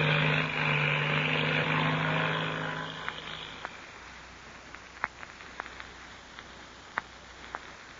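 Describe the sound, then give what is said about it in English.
A black two-seater propeller airplane takes off from a dried lake bed. Its loud engine drone holds for about three seconds, then fades away, leaving near quiet broken by scattered faint clicks. “Two shadowy figures, Patsy Donovan and the Mexican boy Pebbles, listened to the takeoff of the black two-seater. And then, when the sound of the engine had faded into distance,”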